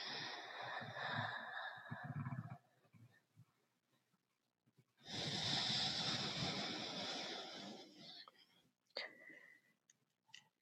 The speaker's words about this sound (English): Begin to breathe in and out through the muscles of your throat.